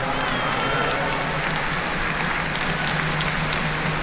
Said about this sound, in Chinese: 观众也是为每一位努力的运动员都响起了热烈的掌声。